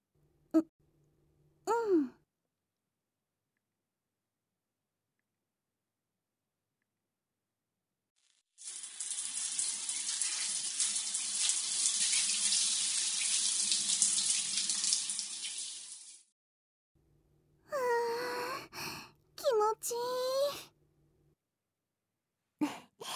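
Tap water runs to fill a bath, a steady bright rush lasting several seconds before cutting off. Short breathy vocal sighs sound before and after the flow.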